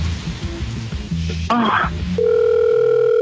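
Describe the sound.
A telephone ringback tone after a call is dialed: a steady electronic tone holds to the end. Before it come muffled voices and rustling.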